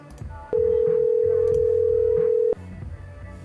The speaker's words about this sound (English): At the end of the beep, please leave your name and tell me what to do.